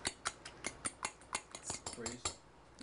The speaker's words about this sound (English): So we're going to take an egg. I'm going to put it here in a nice bowl, mix it up just like this.